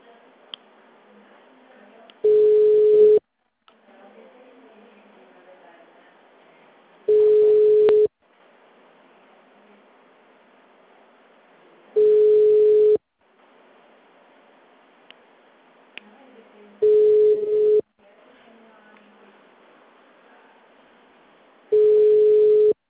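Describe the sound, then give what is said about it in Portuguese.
A telephone busy signal sounds on a call: five steady, mid-pitched tone bursts. Each lasts about a second, with long gaps of faint line noise between them. “Chamada sobre ocupado.”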